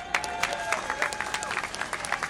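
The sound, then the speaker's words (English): Applause for a group of speakers at a gathering: fairly faint, scattered claps with many distinct sharp hits in an uneven rhythm, continuing throughout rather than forming a dense roar. “I really want us to give another round of applause for the brothers and sisters that spoke”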